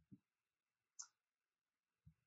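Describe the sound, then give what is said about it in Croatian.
Computer mouse clicks while sharing a screen in an online session: three faint, short clicks about a second apart in near silence, the middle one sharper and brighter than the two duller taps around it. “Evo, kliknut ću na share”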